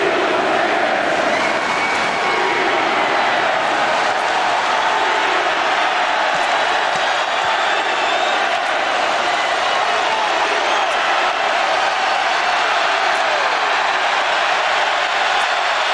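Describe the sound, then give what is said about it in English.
A loud, sustained crowd ovation fills a Colorado basketball game during a timeout as Coach Deion Sanders enters the building. The dense roar of cheering holds steady for the whole stretch without a break. “During the timeout, they were waiting all night for this, the loudest ovation, not for a KJ Simpson three, but Coach Prime, Deion Sanders, has entered the building.”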